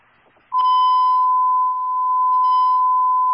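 A fire department dispatch alert tone sounds: a steady, loud, high electronic beep that starts abruptly after a brief faint rustle and holds unbroken for about three seconds.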